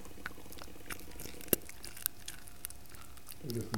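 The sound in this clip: A dog crunches a cooked bone, with a few sharp cracks and snaps breaking through steady wet munching and gnawing. One loud crack stands out near the middle.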